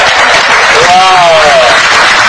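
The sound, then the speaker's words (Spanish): Loud applause from a seminar audience for the Cubans among them, a dense continuous wash of clapping with one voice whooping over it, rising then falling, in the middle. “¿Aquí hay cubanos? Un aplauso para los cubanos.”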